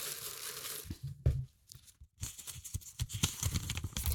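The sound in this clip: A paper slip is drawn from a set of entries and unfolded, giving quiet intermittent rustling and crinkling with a few sharper crackles and a brief pause in the middle.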